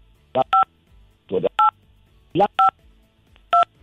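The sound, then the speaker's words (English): Telephone keypad tones are pressed by a cheek during a call, giving several short, crisp electronic beeps in uneven pairs, some smeared with brief rubbing noise, spaced about a second apart against a quiet line. “I think you're dialing the phone with your cheek and it's interfering with your voice, and also it's making for poor quality conversation.”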